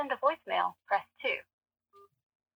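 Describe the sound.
A telephone keypad tone from a button being pressed: one short, steady, two-pitched beep sounds alone after a person speaks a few words.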